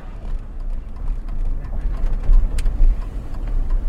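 A car drives a resettled family through Charlotte to their new townhouse, heard as a low, steady engine and road rumble with faint lighter clicks above it and no talk.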